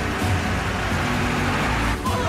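A multi-wheeled armoured vehicle with a gun turret rumbles down a street, giving a heavy, steady low roar with a grinding mechanical texture throughout.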